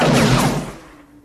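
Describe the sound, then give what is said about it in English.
A single gunshot from the film Demolition Man rings out alone: one loud, sharp bang whose noisy tail fades away over about a second. “Being frozen must have thrown my aim off. Don't worry, I'll get you with the next shot.”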